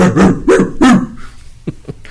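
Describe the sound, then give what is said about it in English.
Dog barking: three loud barks in a steady rhythm, followed by two shorter, fainter yips. “Can you do the dog thing again,”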